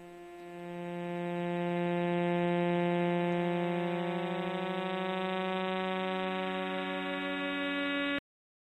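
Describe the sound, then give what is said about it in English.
Sonified signals from millisecond pulsars in the star cluster 47 Tucanae form a steady, buzzing harmonic drone with faint rapid ticking. It swells over the first two seconds, holds level and then cuts off abruptly. “the 16 recorded millisecond pulsars in 47 Tuck are making this sound right now.”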